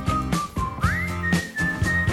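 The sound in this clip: Melodic whistling in a song holds clear, steady notes and then slides up to a higher sustained pitch. Instrumental backing with regular beats plays underneath.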